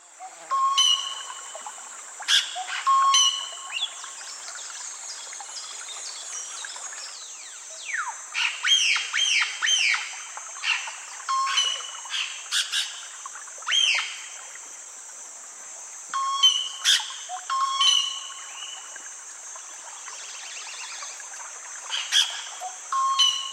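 Ochre-striped antpitta calls sound as repeated whistled notes among many other chirps and squawks from several birds. A constant high-pitched drone runs underneath, and the calls come in bursts across the whole stretch.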